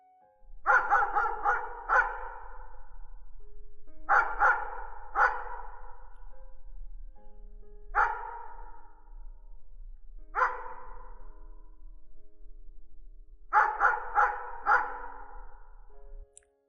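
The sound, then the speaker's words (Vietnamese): A dog barks in a yard in several separate bursts, mostly quick runs of three or four sharp barks with single barks between them and quiet gaps in between; no voices are heard. “tự nhiên có con chó ngoài sân nó cứ sủa.”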